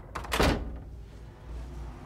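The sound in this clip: A door being opened: one short, hollow thunk near the start, then only a low, steady background hum.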